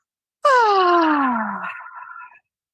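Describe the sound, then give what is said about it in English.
A big voiced yawn ending in an audible exhale: one drawn-out moaning tone that slides steadily downward in pitch and trails off into a breathy fade, heard alone. “extend your arms over your head and do a big audible yawn with an audible exhale.”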